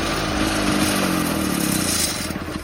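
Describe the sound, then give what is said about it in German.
A Trabant car engine runs with a loud, rattling, buzzing note that stays fairly steady, then breaks into choppier pulses toward the end. “Ey, der Trabi war das.”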